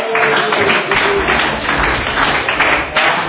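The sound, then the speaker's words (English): Applause from an audience welcoming the evening's speaker, a dense, steady wash of clapping that stays loud and continuous throughout. “Please give a hand for David.”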